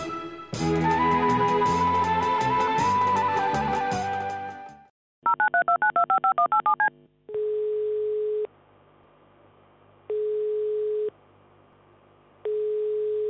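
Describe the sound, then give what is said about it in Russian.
Touch-tone telephone keypad dialing a taxi agency's number: a rapid run of beeping key tones, followed by three long ringing tones separated by pauses. “набирает номер агентства.”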